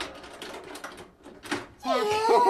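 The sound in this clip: A door creaks shut in a children's audio drama as someone is locked inside, following a stretch of excited young voices; the closing brings a loud, wavering, whistling squeal that holds to the end.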